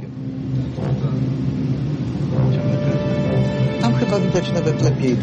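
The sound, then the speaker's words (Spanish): Droning engine of a survey boat setting off to scan the seabed with sonar, a continuous low rumble that grows slightly stronger, with a tonal whine emerging toward the end. “El barco comienza a navegar para escanear el fondo marino con un sonar.”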